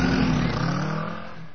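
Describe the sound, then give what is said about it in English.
A car drives off, its engine a steady low rumble with a faint whine that gradually fades toward the end, with no voices. “Still in the dark, we switched on our headlights and drove off into the bright afternoon sun.”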